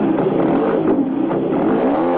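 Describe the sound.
A motorcycle carrying two riders pulls away across a gravel parking lot: a steady, fairly loud mid-pitched engine drone with rough crunching clatter running throughout, no voices.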